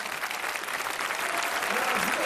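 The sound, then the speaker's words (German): An audience at a poetry slam show in Leipzig applauds heartily, a dense, unbroken roar of clapping that stays loud throughout, with voices mixed in. “Bitte einen ganz herzlichen Applaus dafür.”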